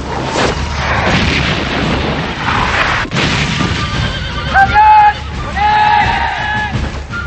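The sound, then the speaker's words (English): Heavy booming cannon fire on a Revolutionary War battlefield, with cannonballs striking the ground as two armies march toward each other. A continuous low rumble carries one sharp blast midway, and horses whinny loudly in the later part. “The armies continue marching toward each other as cannonballs blast the ground between them. The armies are getting closer to each other and the cannon blasts continue.”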